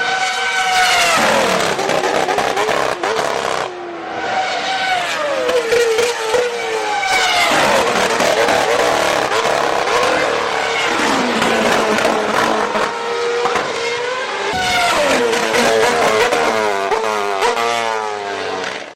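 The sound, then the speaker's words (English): Formula One race cars scream past at the 2011 Grand Prix at Silverstone, one after another. Their loud, high-revving engines sweep down in pitch as each car passes, with rapid gear shifts and a couple of brief lulls between waves of cars. “That was so exciting to listen to. Oh, it's awesome. I feel very fortunate to actually go and see a Grand Prix live during this era. And that was at Silverstone in 2011.”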